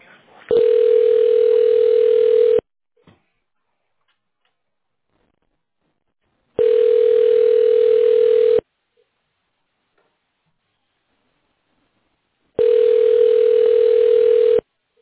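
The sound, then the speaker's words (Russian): Telephone ringback tone during a call transfer: three steady, loud buzzing tones of about two seconds each, separated by long silent gaps in a slow, even rhythm. “Могу вас на этого специалиста перевести? Ну, туда перевожу на линию, оставайтесь, пожалуйста.”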